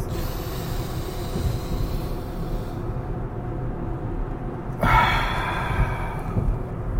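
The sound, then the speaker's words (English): A deep breath is drawn in, held through a stretch of near silence, then let out in a sudden, forceful exhale that trails off toward the end. “Let's do a bonus one. Deep breath. Ready? Go.”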